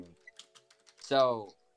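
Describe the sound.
Typing on a computer keyboard gives a few soft, quick key clicks at an uneven pace, followed by a short burst of a voice.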